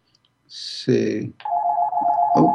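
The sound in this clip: A phone rings with a steady, sustained electronic ringtone that holds an even pitch, following a brief voice at the start.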